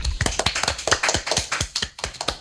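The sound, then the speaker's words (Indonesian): Clapping from an audience after a child finishes telling her story. A series of sharp, distinct claps comes in an uneven rhythm, loud and separate rather than blended into a roar. “Sekian cerita Molly, terima kasih. Tepuk tangan dulu untuk Molly.”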